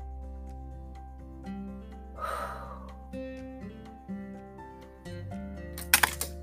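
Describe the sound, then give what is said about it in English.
Eyeglasses falling and crashing onto a hard surface, heard as a quick cluster of sharp clattering impacts near the end over steady sustained music. “That was my glasses crashing.”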